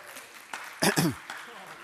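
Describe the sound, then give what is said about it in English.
A church audience shouts and claps at a preacher's prompt, two loud, whooping shouts rising out of scattered clapping, with talk around them. “Shout or clap if you know Matt O'Neill.”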